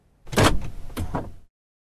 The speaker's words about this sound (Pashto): لږ صبر چې دا کړکۍ بنده کړم.